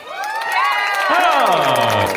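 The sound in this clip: A studio audience cheers and whoops loudly, with overlapping voices swooping up and down in pitch as the sustained excitement builds.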